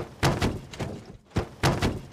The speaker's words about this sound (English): Then, the drawers began flying open and slamming shut on their own.